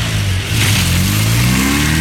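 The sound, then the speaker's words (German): A car engine revs as the driver accelerates: a loud, continuous throaty drone whose pitch climbs gradually over two seconds, with no talk over it. “Jetzt einsteigen und Gas geben.”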